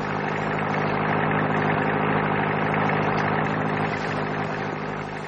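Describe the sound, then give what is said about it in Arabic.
A car engine runs with a loud, steady, even drone that holds nearly constant for the whole stretch, low rumble with no other sounds. “سمع صوت عربية جاي من بعيد.”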